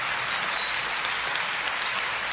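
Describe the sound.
Applause from a church audience fills the moment, a steady, dense wash of clapping at moderate loudness, even throughout with no voices over it.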